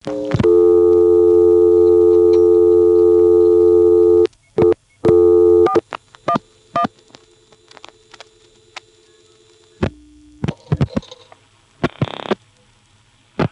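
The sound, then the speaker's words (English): An NX1 payphone call dialing into a step-by-step telephone exchange toward Hanover: a steady, loud tone lasts about four seconds, then breaks into a sequence of sharp clicks and brief tones, with a short lower hum near the end. “this NX1 from which we're calling returns our dime after outpulsing the number, and so the dime return obscures the first little bit of sound from Hanover, but it does appear to be dialing into the step in both cases”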